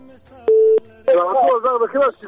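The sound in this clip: A single short, steady beep marks a telephone call being disconnected, followed by a person talking.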